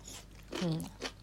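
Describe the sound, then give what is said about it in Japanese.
Soft chewing on daikon radish during a meal: a couple of quiet, brief crunchy bites, with a short hummed voice between them. “うん、こうやって大根とか箸休めで食べないと結構しんどいかも。”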